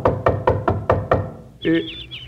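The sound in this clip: Knocking at a front door: about six evenly spaced, firm raps in a steady rhythm, followed by a short sustained tonal sound.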